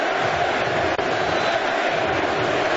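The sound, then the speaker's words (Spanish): Football crowd noise rises from the stands at a United States match in the Bay Area, a dense and continuous roar with one brief dip early on. “Los sonidos en la tribuna, los sonidos del fútbol.”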